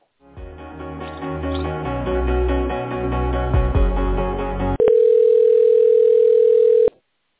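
Telephone tones play while a call to a medical clinic is transferred: a run of tonal hold chimes gives way to a single steady, loud continuous tone lasting about two seconds before it cuts off abruptly.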